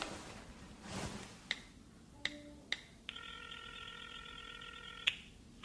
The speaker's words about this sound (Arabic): خلني اتصل في مريم اشوفها منين جابت المعلومات.